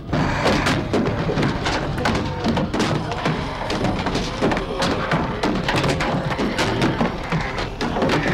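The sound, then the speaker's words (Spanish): A mass of zombies bangs about upstairs in a house, with many irregular dull thuds, knocks and thumps over a continuous noisy rumble, steady in loudness throughout. “mientras arriba la masa de zombies deambula golpeando.”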